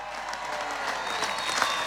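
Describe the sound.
Crowd applause at a Mayo football homecoming in Ballina welcoming a player and the Sam Maguire cup. Dense, loud clapping holds steady from start to finish.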